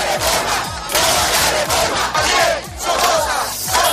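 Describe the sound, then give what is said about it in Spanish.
Massed shouting from a Nicaraguan street protest in 2018: a loud crowd roaring and chanting in surging waves, with brief dips between bursts of collective yelling. “Este es el sonido de las protestas de 2018.”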